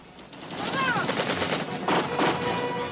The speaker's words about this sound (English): The chopper arcs around the ridge. The U.S. soldiers return fire.